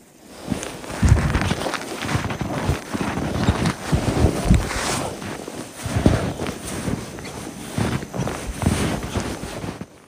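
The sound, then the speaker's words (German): Footsteps crunch through very cold, powder-dry snow in a steady series of gritty bursts, mixed with wind buffeting the microphone. “Durch die Kälte macht der Schnee übrigens ein ganz anderes Geräusch beim Gehen. Ich finde, man hört am Sound schon, dass dieser Schnee anders ist. Ich habe euch mal ein Beispiel mitgebracht, wie das klingt, wenn man durch diese Art von Schnee läuft.”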